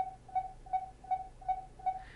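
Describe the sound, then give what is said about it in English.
Enemy radar beeping in a helicopter video game: a steady series of short, evenly spaced, mid-pitched electronic beeps, fairly quiet and alone. “the enemy can use their enemy radar to detect you. The enemy radar sounding like this.”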